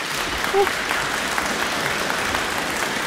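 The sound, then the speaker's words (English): Audience applause after NZ Trio performs movements from Robert Schumann's Six Studies in Canonic Form. Warm, even clapping continues without pause throughout. “Well, that was the audience of NZ Trio performing one of the six studies in canonic form.”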